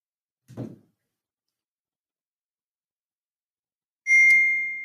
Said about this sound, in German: Na die Nachricht kommt jetzt auf WhatsApp.